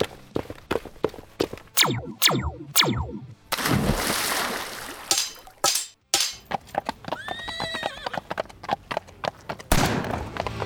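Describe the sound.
A ridden horse's hooves strike in irregular sharp thuds throughout, with several loud descending whinnies near the start and another neigh later. A broad noisy rush fills the middle stretch, and no one speaks.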